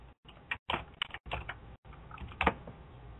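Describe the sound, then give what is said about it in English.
Fingers tap on a computer keyboard in a quick, irregular run of many clicky keystrokes, with short gaps of silence between bursts. “Let me just type this in here.”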